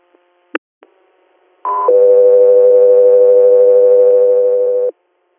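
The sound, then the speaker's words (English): Two-tone radio paging alert used to dispatch an air medical transfer. A few faint clicks come first, then a brief higher tone followed by a long, steady, lower tone that holds loud and clean for about three seconds before cutting off. “stand by for tones”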